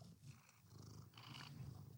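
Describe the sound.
A cat purring, a low, steady rumbling throb that holds throughout at moderate level, with a soft breathy hiss over it and no talk.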